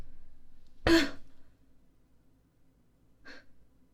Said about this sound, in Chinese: 怎么不咳了？